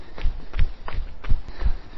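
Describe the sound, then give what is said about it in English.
Jogging footsteps of a person running at an easy warm-up pace outdoors, a steady rhythm of soft, low thuds over a constant hiss. “So we'll just jog for a bit, a little bit of preamble.”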